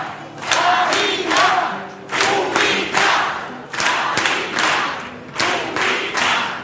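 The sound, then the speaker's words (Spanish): A theatre audience at the Gran Teatro Falla roars and cheers at the end of a pasodoble, the loud crowd noise surging in steady rhythmic bursts, like clapping or chanting in time, throughout. “no queríamos tampoco entrar en el sonido de teatro para que viva lo que está sucediendo en el Gran Teatro Falla”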